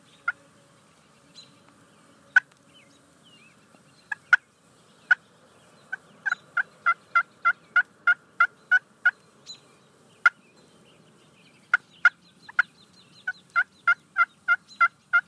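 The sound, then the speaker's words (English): Soft turkey hen clucks and yelps made on a hunting call, imitating a hen just waking: many short, sharp, light notes, first scattered, then in quick, evenly spaced runs, with quiet gaps between. “So it's a very soft call. The hen just woke up, and I mean, it's going to be pretty light. I mean, it'll be a couple, you know, soft clucks and maybe a couple soft yelps.”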